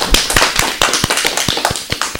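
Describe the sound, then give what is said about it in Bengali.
Clapping for a young child after a recited poem, made up of many sharp, distinct hand claps in an uneven rhythm, loud and crisp with no voices over them. “আমাদের ছোট্ট বন্ধুর জন্য এবারে জোরে একটা করতালি হয়ে যাক।”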